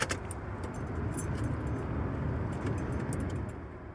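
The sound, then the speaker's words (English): A van engine is started for the first time after a roadside repair, its steady low rumble running throughout with keys jangling sharply over it. “I'm gonna start the van for the first time since pulling over.”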